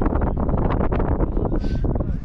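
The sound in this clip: Strong wind outdoors near water, buffeting hard in a loud, dense, low rumble that barely lets up for a couple of seconds.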